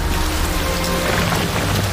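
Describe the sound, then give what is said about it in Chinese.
Steady rain falls continuously, a dense, even hiss of drops striking surfaces with no clear pauses and no voices. “下雨了，这下真的要全毁”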